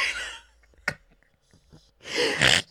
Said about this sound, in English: If you're new here, I snort.